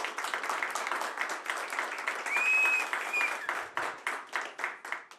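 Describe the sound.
Audience applause for the band at a kafana music evening, clapping in steady rhythmic beats, with a brief whistle partway through.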